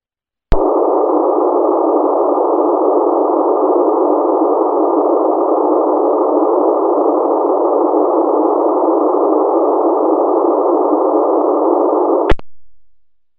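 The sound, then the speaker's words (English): Raw digital radio data stream received through analog carrier squelch: a steady, harsh, band-limited hiss that runs unbroken for about twelve seconds. Sharp clicks open and close it. “the receive portal will be listening in analog carrier squelch to hear what the raw data stream sounds like”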